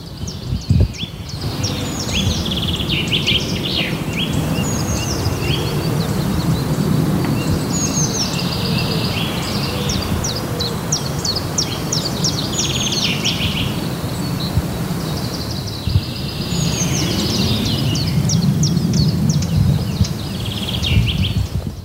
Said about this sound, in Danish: Jeg synes også, det lød som om, der var en kernebider, der sådan sad og sagde, pst, pst, ja, den kommer der. Simpelthen. Flyvende henover.